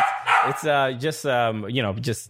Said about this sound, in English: Now room tone is a loud bark and coffee beans being grinded.